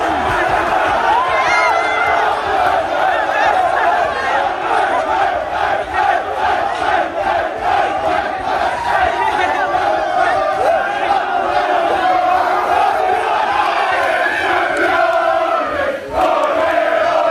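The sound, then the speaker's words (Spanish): A football team celebrating a title with a loud crowd chant of "campeones", a dense, continuous roar of many voices that pulses in a steady repeated rhythm throughout. “era el sonido seguido del Arsenal celebrándolo. Es un minuto más o menos. Mira, escucha. Terminaban con el campeones.”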